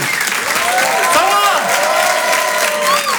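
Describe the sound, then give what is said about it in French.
An audience applauds and cheers as a comedian is welcomed on stage at a comedy festival show, with loud, dense, steady clapping throughout and a voice speaking over it. “Je vous demande de l'applaudir très fort pour cet Open du Rire.”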